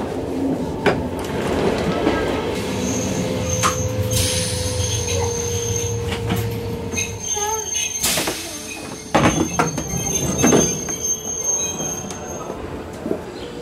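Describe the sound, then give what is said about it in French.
A train arriving at Montreux railway station in Switzerland, its wheels squealing loudly and almost continuously over a rumbling, clattering roll with metallic screeches. “Bon, alors là, je me trouve à la gare de Montreux. Je viens d'arriver.”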